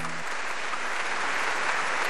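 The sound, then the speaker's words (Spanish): Audience applause after a quiz contest winner is announced: a dense, even patter of clapping that holds steady at moderate level for the whole stretch. “Gracias a sus aplausos.”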